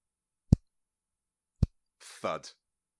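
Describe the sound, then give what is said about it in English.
Two sharp finger clicks, each made by snapping both hands at once, ring out crisp and loud about a second apart, followed by a brief voiced sound. “Clicking your fingers and doing two thumbs up. No, you're just showing off, clicking both fingers at the same time.”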